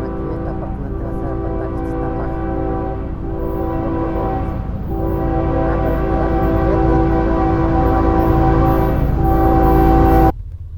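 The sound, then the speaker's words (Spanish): A train horn sounds as the train arrives at or leaves Apan: one long, loud, sustained blast of several blended tones over the rumble of the train. The blast holds for about ten seconds and then cuts off abruptly. “Pita el tren anunciando que va llegando a Apan o que se va.”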